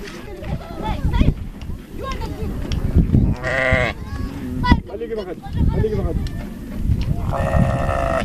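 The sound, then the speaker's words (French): Livestock gathering to drink at a pastoral watering station in Chad, with a couple of clear bleating calls rising over a constant bustle of animals and people talking throughout. “vraiment beaucoup, beaucoup de bétail qui viennent s'abreuver ici.”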